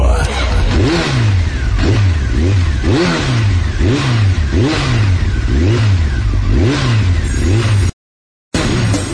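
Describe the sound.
A car engine revs again and again while accelerating. Each rev rises and falls in pitch in a steady, repeating rhythm, loud throughout, before a brief cut to silence near the end.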